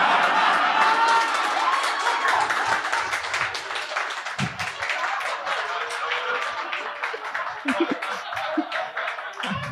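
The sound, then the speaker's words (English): A live audience applauds: dense, continuous clapping that stays loud throughout, with scattered cheers mixed in. “keep applauding, I'm going to try and get me a drink.”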